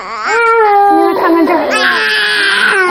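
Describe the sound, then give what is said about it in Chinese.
A baby cries in a loud, continuous wail that starts abruptly and stays strained and wavering until the end. “哎呦，我小宝就哭了啊！”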